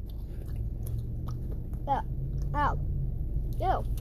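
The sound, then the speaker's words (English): Crunching and chewing of honey-flavored cheese curls, faint crisp bites and mouth noises, with a few brief murmured voice sounds in between. “All right, here we go. Honey flavored cheese curls.”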